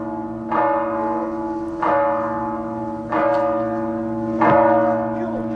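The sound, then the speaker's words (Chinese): A loud, harsh bell at a shooting competition venue is struck four times at steady intervals, each clang ringing on in long, humming tones that carry between strikes. “今天现场的噪音还是比较多的啊，像这种比较刺耳的敲钟的声音，还是会对选手有一定的影响。”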